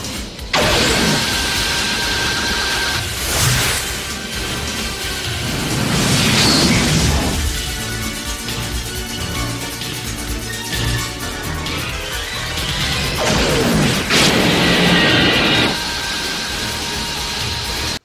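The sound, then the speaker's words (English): A bullet flies as a sound effect from the film Runaway: several whooshing sweeps and bursts over a dense, loud, rumbling mechanical background. “And you've got that really cool POV shot, and there's you can hear the bullet fly as well. There's like a sound effect, isn't there?”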